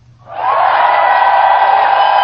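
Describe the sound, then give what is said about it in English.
A cheering crowd sound effect swells in after a brief quiet start, then holds at a loud, steady level with whoops and yells mixed into the roar. “Where is my cheering? Right here.”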